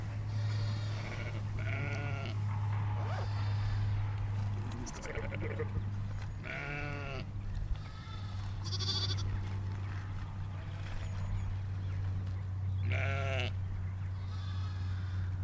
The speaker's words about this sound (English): The mother answering those lambs. They're all talking to each other.